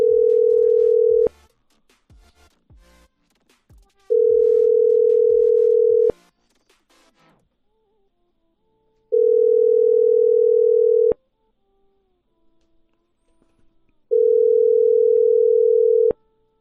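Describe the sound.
A telephone ringback tone plays while a number is being dialled, repeating as a steady mid-pitched tone in long bursts separated by pauses of a few seconds, with faint low rustling between the bursts.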